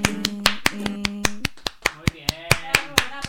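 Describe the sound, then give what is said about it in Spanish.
Rhythmic hand clapping from a group of older women in a radio studio: many sharp, evenly spaced claps in a steady beat over voices and a sustained sung tone. “Que nos gusta mucho aplaudir.”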